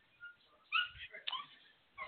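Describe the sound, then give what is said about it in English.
Dogs whimper and whine in thin, high cries. A few short, faint yelps come at uneven intervals over a quiet background. “I apologize for my dogs.”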